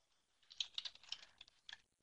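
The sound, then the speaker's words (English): Typing on a computer keyboard: a faint, slow, uneven run of several clicking keystrokes that trails off into quiet. “Whoops, Jason, I typed so slowly.”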